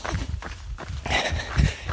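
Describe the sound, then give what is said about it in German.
Footsteps of people walking on between stations of an outdoor exercise course, a run of irregular thuds and scuffs over steady background noise. “Und wir laufen mal weiter. Alter, wir laufen mal weiter in die Richtung und gucken uns die nächste Station an.”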